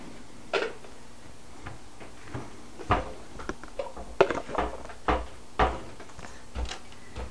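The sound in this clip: Cupboard door knocking and clacking as it is opened and shut at home, the door partly blocked by a child's walker: many sharp, irregular knocks and thuds of varying loudness, with no talking.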